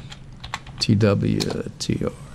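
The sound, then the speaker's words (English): Keys clack on a computer keyboard as a stock symbol is typed into a charting site: several light, quick clicks, with a voice talking over the middle stretch. “So type in this where the symbol goes”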